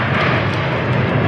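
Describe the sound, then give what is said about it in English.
Jet roar from the Navy Blue Angels flying into Billings for the Yellowstone International Air Show, a loud, broad, steady rushing thunder with a slight swell toward the end. “That's the sound of the Navy Blue Angels as they flew into Billings from Oregon last night for the Yellowstone International Air Show this Saturday and Sunday.”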